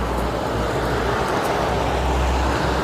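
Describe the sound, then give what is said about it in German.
A fire engine truck passing on a road, heard as a loud, steady roar of engine and traffic rumble that holds even throughout. “Da kommt die Feuerwehr. Die Feuerwehr, der LKW von der Feuerwehr.”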